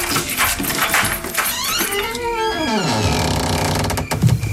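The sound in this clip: A key turns in the lock of a house door at night, making metallic rattling and ratcheting clicks within a loud, busy mix of other sounds.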